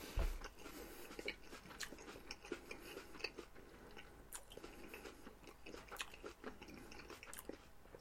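Chewing a crunchy Golden Delicious apple produces many faint, crisp crunches and bites in an irregular rhythm, with no talk.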